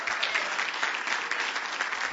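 An audience applauds to welcome guests from a ministry working in Ecuador. The clapping is dense, loud and steady from start to finish.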